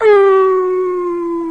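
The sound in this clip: A man's voice imitates a dog howling, like a coyote or coon dog: one loud, drawn-out howl that dips slightly in pitch at the start, then holds a steady tone that slowly fades.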